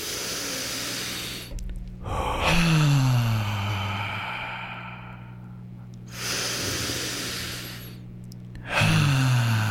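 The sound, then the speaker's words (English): Slow, deep breaths drawn in through the nose and released in long, airy exhales during a gratitude breathing exercise, heard over a low background drone. “And as we breathe in through our nose, let's think about everything we're grateful for. And as we exhale, just let absolutely everything go. All right, here we go. 3, 2, 1, all the way in.”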